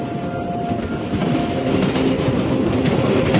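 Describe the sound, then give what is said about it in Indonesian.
A train slows down, a loud steady rolling rumble with a faint rhythmic clatter of wheels that grows slightly louder toward the end, heard alone without voices. “Ketika aku bangun, kulihat kereta ini menurunkan kecepatannya.”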